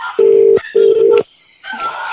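Two steady, loud telephone keypad touch-tones sound with a short gap between them, followed by a brief quiet pause and then a softer hiss on the line.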